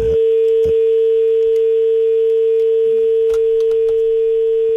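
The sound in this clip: Steady dial tone on a phone line after a caller is cut off: a single unbroken mid-pitched hum that holds for the whole stretch, with a few faint clicks over it.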